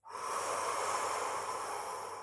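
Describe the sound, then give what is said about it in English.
A single long, deep breath, a steady airy hiss held for about two seconds, soft and with no talk. “So when you take a deep breath in and then slow the exhale, you physically feel more relaxed”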